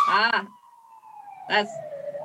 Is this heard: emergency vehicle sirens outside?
yes

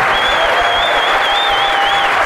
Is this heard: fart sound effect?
no

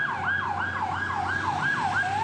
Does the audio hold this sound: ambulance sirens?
yes

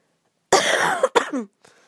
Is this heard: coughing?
yes

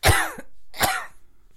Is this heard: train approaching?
no

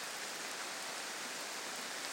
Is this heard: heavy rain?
yes

